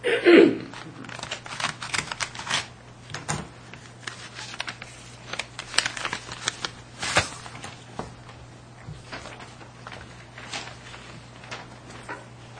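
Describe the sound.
An envelope being cut open: many small crisp snips, paper crackles and rustles scattered irregularly over a low steady hum, fairly faint throughout.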